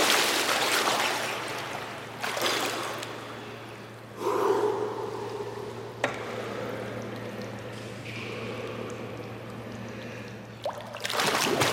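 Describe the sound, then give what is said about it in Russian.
Someone jumps into a swimming pool, raising a burst of splashing water followed by churning and sloshing. A few sharp splashes rise out of the steady watery noise. “прыгает в бассейн.”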